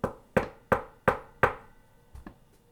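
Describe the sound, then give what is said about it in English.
Knocking on a door: five firm, evenly spaced raps, followed after a pause by two fainter knocks close together. “Let them knock again. Let them say who they are.”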